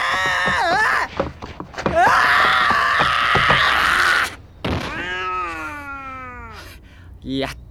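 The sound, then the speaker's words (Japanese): A cat yowls on a rooftop in a long, drawn-out wail that sinks in pitch, following a stretch of loud moaning and shouting voices. “だって屋根の上でこんなもの着て猫捕まえられると思いますかね。”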